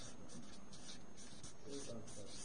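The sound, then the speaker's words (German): A pen writing on paper, faint, with quick scratchy strokes that come in short repeated bursts. “Ich weiß nicht, ob ich Jezorn richtig geschrieben habe.”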